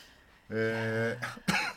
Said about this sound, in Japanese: 大丈夫大丈夫、急に 咳ぐらいするさ、いつだって。